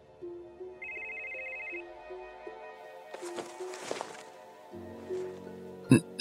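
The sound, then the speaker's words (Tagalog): A cellphone rings with an incoming call: an electronic melodic ringtone of steady, repeated tones that plays throughout at a moderate level, with no voices. “napansin kong hindi pala alarm ang tunog ng cellphone ko. Isa itong tawag.”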